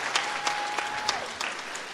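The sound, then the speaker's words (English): Audience applause after a Christmas performance: steady, moderately loud clapping from many hands, with a few sharper claps standing out, continuing evenly for the whole stretch. “Let's give our audience a big hand.”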